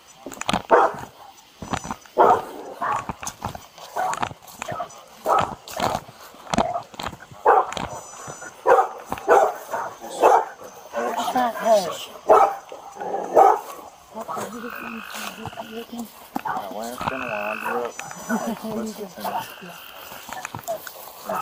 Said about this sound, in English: The temperamental dog right there.